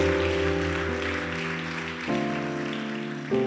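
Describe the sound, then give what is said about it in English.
An audience claps at the close of a church service, a dense, even patter of applause over sustained chords that shift a few times. “Put your hands together for Jesus as we close.”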